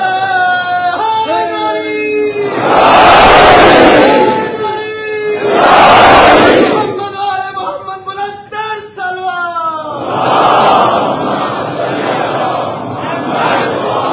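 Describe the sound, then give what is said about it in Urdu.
A crowd chants a religious slogan in the name of Ali in loud, roaring bursts that break in between a man's impassioned speaking voice. “ایک بار علی کے نام کا نعرہ لگائیے, علی آ جائیں گے.”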